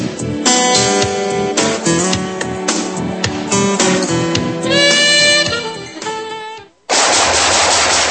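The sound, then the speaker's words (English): Rapid gunfire in a radio ad, with loud bursts of automatic fire over a ringing tonal layer. The fire cuts out briefly near the end before one last noisy burst. “Nice shooting.”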